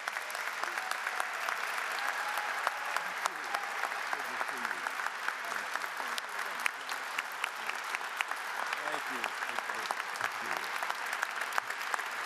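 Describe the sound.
Sustained applause from an audience welcoming Bill Moyers, a dense, even wash of many hands clapping that holds steady at a fairly constant level for the whole stretch.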